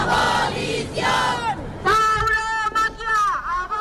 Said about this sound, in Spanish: en Zaragoza, unas decenas de activistas se manifiestan frente a la Plaza de Toros, en la Plaza del Pilar, en protesta porque se destine dinero público para las corridas de toros.